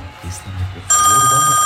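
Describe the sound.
A telephone rings, a loud, bright, steady bell that cuts in abruptly about halfway through after a stretch of talk and continues to the end.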